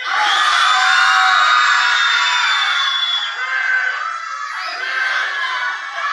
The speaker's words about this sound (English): I need you to tell me, shout out the name of your pet as soon as I count to three, okay?